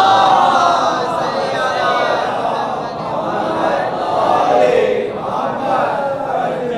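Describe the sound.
A large crowd chants durood (salawat) together in unison at a religious majlis, a dense, steady wash of many voices that holds at an even loudness throughout with slight swells.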